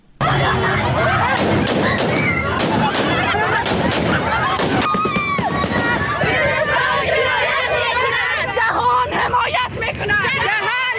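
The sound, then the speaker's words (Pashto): During a women's protest in Kabul, Taliban fighters fire many gunshots into the air to break it up. Sharp, loud cracks punctuate a constant roar of shouting and agitated voices from the crowd. “دا په کابل کې د خزو هغه اعتراض و چې طالبانو په هوایي ډزو تیتو پرک کړ.”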